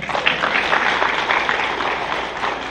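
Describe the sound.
An audience in a lecture hall applauds, a dense, steady burst of many hands clapping that carries on for a few seconds.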